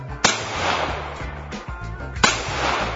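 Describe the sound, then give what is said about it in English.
Two loud gunshots ring out, sharp sudden cracks about two seconds apart, each ringing briefly before fading into a low, steady rumbling background. “Damn thing is loud, though. I think I'm going to back up a minute here. I'll shoot once more and make sure it wasn't a fluke.”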